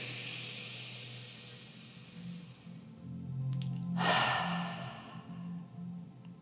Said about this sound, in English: We're going to inhale. Hold the breath. And then stick out your tongue and go.